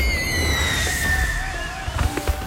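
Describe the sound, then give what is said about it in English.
Fireworks at a pre-Fourth of July demo night show: several high whistling streaks glide slightly downward, then a cluster of sharp cracking pops and bursts breaks out near the end over a low rumble. “Enjoy the annual pre-4th of July demo night fireworks show and customer appreciation event at Pyroholics just off the Coleman exit.”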